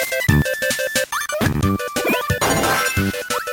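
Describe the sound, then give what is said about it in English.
Game audio from Kirby Nightmare in Dream Land on the Game Boy Advance: bright, busy chiptune music mixed with blips and several quick rising pitch sweeps, loud and continuous with short gaps. “Well, let me tell you what I'm actually playing here. I am playing sound from Kirby Nightmare and Dreamland from the GBA.”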